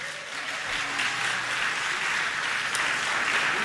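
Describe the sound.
Audience clapping for a still-active band after its past contest win is recalled. Soft, steady applause from many hands continues evenly for several seconds, with a faint low hum beneath it.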